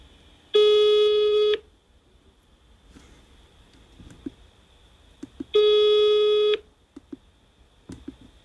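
Telephone ringback tone from a call placed to a primary school: two long, steady, buzzing tones, each about a second, separated by a roughly four-second pause with faint clicks and rustles between.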